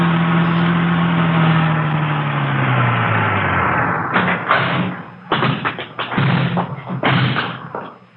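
Car driving out to the Wilshire district: a steady engine drone whose pitch sinks over the first half, then gives way to a run of knocks and thuds.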